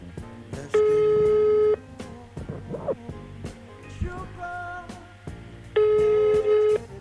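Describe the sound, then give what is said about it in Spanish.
Ringback tone of an outgoing telephone call: two steady buzzing tones, each about one second long, separated by a pause of roughly four seconds, with faint rustling in between. “A ver si suena el teléfono. Suena.”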